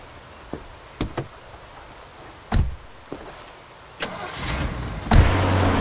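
A person gets into a car: a few thumps and door knocks, then the engine starts and settles into a steady low idle.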